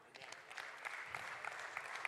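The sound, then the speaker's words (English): A church audience claps during a sermon: a quiet, dense patter of many hands with scattered sharper claps standing out, continuous and without speech. “And God says, yeah, you can clap for that.”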